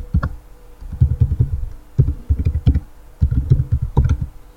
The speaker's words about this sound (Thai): ก็พิมพ์อีเมลของเราไป